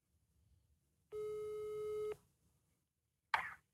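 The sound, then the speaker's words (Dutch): Telephone ringing tone played over a speakerphone while calling someone: one steady, buzzy tone with harmonics, about a second long, then a short noisy burst after a pause. “Doe het eventjes overluid, dat we het in de microfoon kunnen horen zo. Hij gaat over.”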